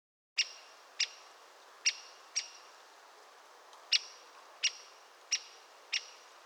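A great spotted woodpecker gives eight sharp, high, clipped calls at uneven intervals, with a longer pause in the middle.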